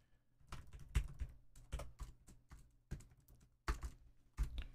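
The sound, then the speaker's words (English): Faint typing on a computer keyboard, with irregular clusters of soft keystroke clicks separated by short pauses and a few sharper, louder taps. “I've lost my ability to type.”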